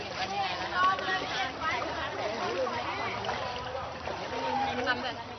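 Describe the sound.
A borrowed green metal rowboat is paddled home through floodwater in Ayutthaya, Thailand. Soft water sloshes and splashes continuously under a speaking voice.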